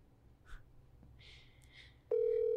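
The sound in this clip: A telephone call tone starts abruptly after a few faint rustles and breaths, then holds loud at a steady pitch until the end.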